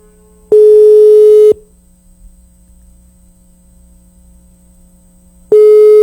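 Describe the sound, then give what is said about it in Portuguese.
Ringback tone on an outgoing telephone call placed from a radio station: two steady, loud, one-second electronic beeps at one pitch, separated by a long silent gap, the second starting just before the end. “Vai começar a tocar aí, rapaz. Atenda. E aí? Atenda, pelo amor de Deus. Chamou, viu? Chamou.”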